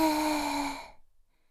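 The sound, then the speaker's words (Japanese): A single deep exhale, voiced like a soft sigh, holds briefly and then fades to silence within about a second. “お互い深呼吸しましょう。”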